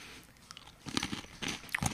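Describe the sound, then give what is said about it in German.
Crisp crunching and chewing of ring-shaped, apple-cinnamon Apple Jacks breakfast cereal, a few loud crackly bites in irregular rhythm with softer chewing between, no talking. “Oh, jetzt habe ich hier so einen Applejack. Das sieht aus wie ein Honey Loop.”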